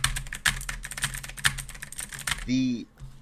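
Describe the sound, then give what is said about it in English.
Typewriter clacking added as a sound effect: many rapid, irregular key strikes tapping in an uneven rhythm, fairly faint overall. “make sure to add in some typewriter clacking to show that we just got sent”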